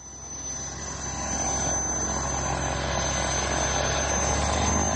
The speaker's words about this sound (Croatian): Posle tri decenije rada motor je uključen, a propeleri su se zavrteli na izvoznoj nadi srpske avioindustrije.